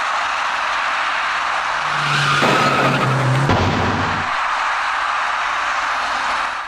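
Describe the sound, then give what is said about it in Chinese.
A white small passenger car turns left into a junction and knocks over an electric bicycle rider coming straight on. Steady vehicle noise swells into a tire skid, broken by a sudden sharp knock, then the road noise carries on. “那辆白色小客向左转弯进入了路口，与此同时，一位电动自行车的骑车人直行而来。由于采取措施不及，白色小客把那位骑车人连人带车一起撞翻在路口里面。”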